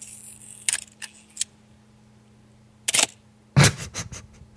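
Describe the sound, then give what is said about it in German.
Camera shutter clicks come as sharp, dry snaps in an irregular series, a few spaced apart early on, then a louder cluster of rapid clicks near the end, with no talking. “Hör mal, jetzt hier, Kamera, Achtung.”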